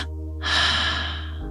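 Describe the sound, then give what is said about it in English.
A person doing a breathing exercise draws one deep, airy breath lasting about a second. It starts sharply, then tapers off over a low, steady hum. “You're going to take a deep breath in through your nose. And then you're going to exhale out through your mouth double times.”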